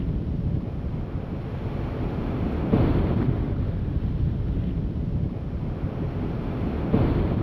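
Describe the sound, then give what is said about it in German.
Ocean surf far below a high cliff, heard as a steady, low rushing roar mixed with wind, continuous throughout with slight swells in loudness. “So hoch, dass die Brandung des Ozeans unter uns nur noch als schwaches Rauschen heraufdringt.”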